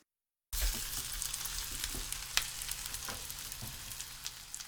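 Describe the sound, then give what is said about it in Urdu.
Sardines frying skin side up in a hot pan with extra oil, a steady dense sizzle dotted with small crackles and pops, starting abruptly after a brief silence, with no voices. “ایک frying pan کو گرم کیجیے اور اس میں روزمرہ سے ذرا ہٹ کر کچھ زیادہ تیل ڈالیے. اب اس میں سارڈین مچھلیوں کو اس طرح رکھیں کہ کھال والی سمت اوپر کی جانب ہو.”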